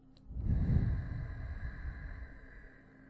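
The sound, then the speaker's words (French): A slow, gentle exhale during a yogic breathing exercise after the fingers are lifted from the nose. It is a soft, low, breathy stream of air lasting about three seconds and fading steadily, with a faint steady hum beneath it. “Dégageons ensuite nos doigts pour expirer doucement.”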